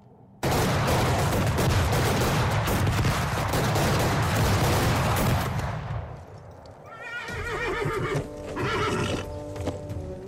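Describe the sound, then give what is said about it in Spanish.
Gunfire in a film scene of a general's assassination in a street: a loud, dense burst of rapid shots and clatter lasting several seconds, followed by quieter horse whinnies and hoof noise. “Esto que escuchan es un corte de la película Prim, el asesinato de la calle Turco, recientemente emitida por Televisión Española. Se trata del momento en el que atentan contra Prim.”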